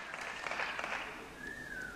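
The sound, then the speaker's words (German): Applause mixed with whistles at the end of a speech by Hungarian prime minister Viktor Orbán. The faint, steady clapping is joined in its second half by a sustained, high whistle. “sagte Viktor Orbán und erntete am Ende seiner Rede Applaus mit Pfiffen”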